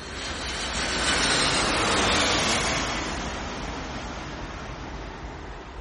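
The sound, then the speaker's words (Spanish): Airplane roar as one passes overhead and another lands nearby, a broad steady rumble that swells to its loudest early on and then slowly eases off, with no voices. “Un avión lo sobrevuela. Guarda expectante. Otro avión aterriza.”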